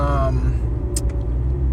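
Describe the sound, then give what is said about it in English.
Car interior driving noise: a steady, low engine and road rumble that holds at an even level throughout. “we're driving right now to, outlets.”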